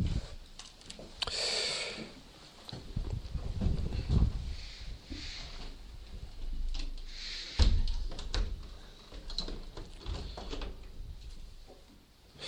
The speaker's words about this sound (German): Wir können jetzt wieder die Fenster schließen.